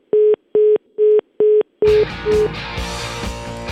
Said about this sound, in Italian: devi sempre far cadere la linea, far abbassare la gente il telefono